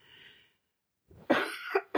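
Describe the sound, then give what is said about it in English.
A few sharp, harsh coughs from a person, bunched close together in the second half after a quiet start, loud and abrupt with short gaps between them. “Sorry, I'm coughing there.”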